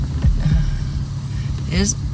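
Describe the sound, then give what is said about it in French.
A car's low engine rumble runs steadily underneath people talking. “There's a car.”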